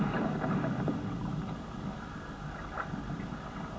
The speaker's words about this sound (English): You're ready to go for your first sail. Now it's only going to be a short one, just out towards that buoy, and when I call you, you can turn round.